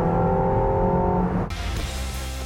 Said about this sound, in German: Und jetzt können wir Gas geben.